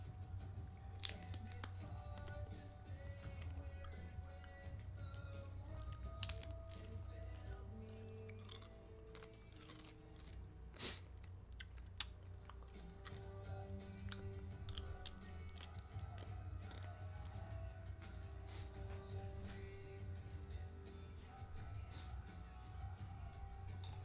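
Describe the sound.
Chewing and crunching of a snack food, with fried fish mentioned, heard as faint, steady mastication with scattered sharper crunches over a low background hum across the whole stretch.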